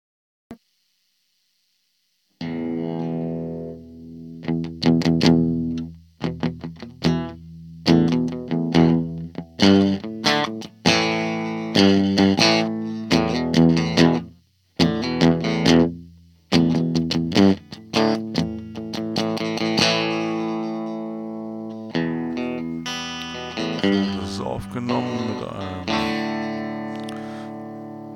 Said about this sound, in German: Wir hören uns das mal an, alles klar. Das sind so Gitarren-Sounds, die man so machen kann.